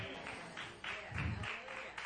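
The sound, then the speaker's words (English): A few faint, scattered hand claps from a church audience during a sermon, soft and brief. “Thank you for those four hand claps.”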